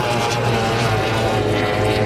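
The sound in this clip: Roaring engine of a Formula 1 powerboat racing past on water, boat number 9, a loud, steady, droning buzz that holds without break for the whole moment.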